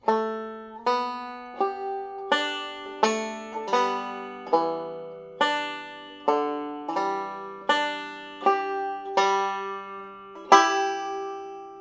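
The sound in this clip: Fingerpicked guitar playing two measures, the fourth string plucked with the thumb and hammered on at the second fret while the index finger picks the third string. A steady, even series of many ringing plucked notes, played alone.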